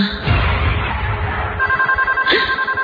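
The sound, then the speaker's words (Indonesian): Telephone ringing in a bedroom, a rapid electronic trill that cuts in partway through over low rumbling noise and keeps pulsing steadily to the end. “astaga, ini telepon bikin kaget aja deh ah.”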